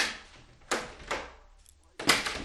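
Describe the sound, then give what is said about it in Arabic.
A door being slammed shut and bolted on an old woman's room, heard as a few sharp, heavy knocks with brief ringing decays, separated by short pauses and moderately loud. “أسرعت وأغلقت عليه الباب بالترابيس”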